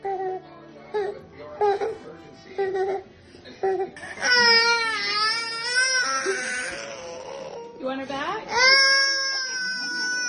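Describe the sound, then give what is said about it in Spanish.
A young boy cries inconsolably as his newborn sister is taken away from him. Short whimpers and sobs give way to long, loud, wavering wails, broken by brief pauses. “el pobre llora desconsoladamente cada vez que se la llevan”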